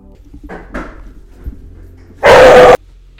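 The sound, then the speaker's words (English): A dog gives a single loud, harsh bark lasting about half a second, after a few quieter, softer sounds. “My boyfriend just walked in the door, so I'm sorry that the dog just barked.”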